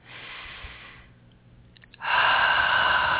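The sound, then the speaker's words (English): A deep breath taken during a guided meditation: a soft, steady rush of air, a quieter pause, then a louder, sustained breath. “Nice deep breath”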